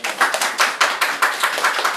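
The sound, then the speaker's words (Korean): An audience in a church service applauds to welcome a missionary speaker: many hands clap sharply in a dense, fairly steady run with no voices. “우리 나오실 때 박수로 좀 환영해 주시면 좋겠습니다.”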